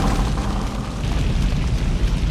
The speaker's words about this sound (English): It explodes, sending Pete into the air.